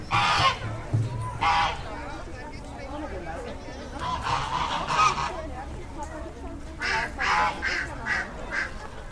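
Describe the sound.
Geese honk repeatedly amid a crowd of people and children talking in a busy, bustling place. The nasal honks come in uneven clusters, mixed with steady chatter throughout.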